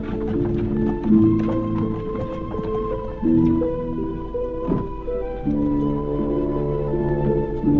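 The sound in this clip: Horse hooves clip-clop as a horse-drawn carriage moves along, mixed with sustained tonal sounds throughout; no one speaks.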